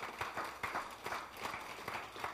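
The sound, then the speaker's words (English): A church audience claps hands in praise during a morning service, a faint, rhythmic run of many claps at a steady pulse. “Give God a hand clap of praise this morning.”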